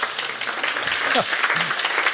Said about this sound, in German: Vielen Dank, der Applaus für Sie.